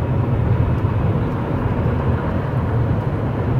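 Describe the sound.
Steady road noise from a car being driven, a dense, continuous rumble with a strong low end and an even hiss above it, holding at constant loudness throughout with no voices.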